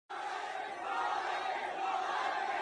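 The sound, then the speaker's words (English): A crowd of thousands cheers wildly for an American basketball star in Shenzhen, China, a dense, steady roar of many voices that holds at an even level from start to finish, with no single voice standing out. “That's the sound of thousands of Chinese going crazy for American basketball star Kobe Bryant in Shenzhen.”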